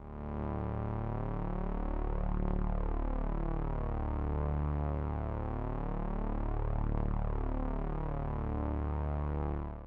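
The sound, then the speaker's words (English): A buzzing low-frequency drone presented as the brown note. It is a dense, steady tone with slow throbbing swells, running continuously on its own without voices. “The noise you heard is the famous brown note that a lot of people seem to think isn't real.”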